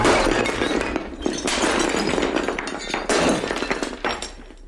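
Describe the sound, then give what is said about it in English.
Glass wine bottles being smashed make repeated loud crashes and bursts of shattering glass, with tinkling debris between the impacts. “smash all those bottles.”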